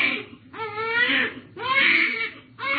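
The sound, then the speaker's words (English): A baby who has just been fed keeps crying in repeated loud, high wails, each lasting about a second, with short breaths between them. “Why baby cry? I mean, he was hungry. Now you feed him, he's still crying.”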